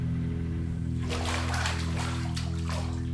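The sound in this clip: Water splashes and sloshes as a girl is washed. After a quiet first second, irregular bursts of splashing run on over a steady low hum.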